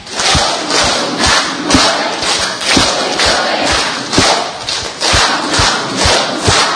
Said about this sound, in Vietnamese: Rồi, vỗ đúng bốn cái như vậy được chưa?